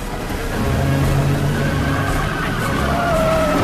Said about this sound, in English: The truck pulls out alongside him.